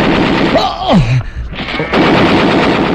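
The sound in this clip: Gunfire in a radio drama: loud bursts of shots with a falling whine near the first second, a brief lull, then another dense stretch of rapid firing to the end.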